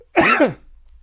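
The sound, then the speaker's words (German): A single short, harsh cough with a voiced, throaty tone, abrupt and fairly loud, standing alone before a quiet tail. “Ich huste einfach ins Gesicht.”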